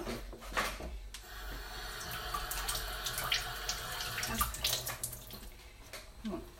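Running tap water rinses a mango before it is cut, a steady splashing flow that continues throughout with small shifts as the fruit moves under the stream.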